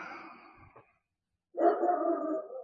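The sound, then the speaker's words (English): Dogs barking: two drawn-out, howl-like barking calls separated by a short silence, with the second louder and fuller than the first. “we get the dogs barking. Did you hear them? I heard them.”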